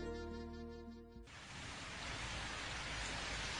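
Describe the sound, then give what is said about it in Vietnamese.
Light rain falling as a soft, steady hiss that begins abruptly after a brief held musical tone and continues evenly and faintly to the end. “Ào ào ào, trời mưa thật, đúng là cầu được ước thấy. Nhưng chỉ là cơn mưa phảng phất nhẹ.”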